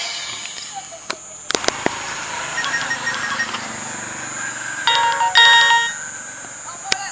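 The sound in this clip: A mobile phone ringtone going unanswered: bright electronic chime tones ring out over background music, with a few sharp clicks scattered through.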